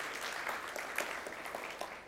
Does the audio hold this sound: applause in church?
yes